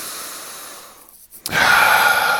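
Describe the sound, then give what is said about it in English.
Deep cleansing breath during a seated relaxation exercise: a soft airy stream that fades to a short pause, then a louder, fuller rush of breath that holds steady to the end. “let's take a couple cleansing breaths here just to settle in. So if you want to inhale with me,”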